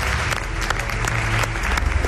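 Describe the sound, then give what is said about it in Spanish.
Audience applause greets a guest introduced as a legend, a dense, steady wash of clapping hands that stays loud and even throughout. “Os pido un aplauso para esta leyenda, Javier Pérez Andrés.”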